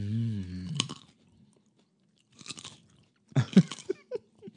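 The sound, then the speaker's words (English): Chewing and biting while people eat, heard as a few short, crunchy bursts separated by pauses, fairly faint and with no talk over them. “I feel like I'm going to choke on something. You know what I mean? Because we're like eating now.”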